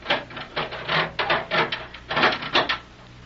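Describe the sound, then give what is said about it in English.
Dry mechanical clacks and clunks as a breech is locked shut: a rapid, uneven series of many short metallic clicks at moderate volume, with no voices. “Now lock that breech.”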